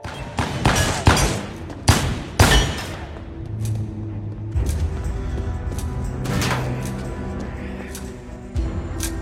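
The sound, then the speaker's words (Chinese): Gunshots ring out in a film scene as a trench-coated man in a basement turns and fires back at someone behind him. A burst of several sharp, loud cracks comes first, followed by a quieter rumbling stretch with a few fainter shots. “背后出现人想要阻止他，风衣男回身开枪反击。”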